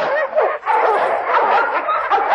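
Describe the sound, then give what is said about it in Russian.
Dogs barking in a Cossack village, a quick, unbroken run of loud yaps and barks that keeps going with barely a pause. “Собаки брех подняли, спасу нет.”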